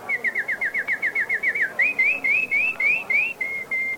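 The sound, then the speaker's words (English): Clear, high whistled notes and birdsong come from a man whistling to a bird until it begins to sing. A quick run of short repeated chirps gives way to longer rising phrases, then a few steady tones, with no voices. “The beggar whistles to the bird, and it begins to sing.”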